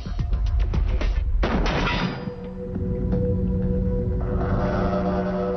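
Gunfire striking an inclined steel armor plate: a rapid series of sharp cracks, then one heavier blast. A dense, sustained rumble lingers afterward, loud and without voices.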